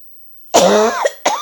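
Two loud coughs. The first is longer, throaty and voiced; the second is a shorter burst after a brief pause. No talk is heard.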